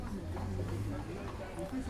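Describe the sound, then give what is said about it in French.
Horse hooves strike the ground as a lone man drives a horse-drawn cart, a steady clopping heard under a person talking. “Un homme tout seul sur une charrette. On entend le bruit des sabots qui frappent le sol.”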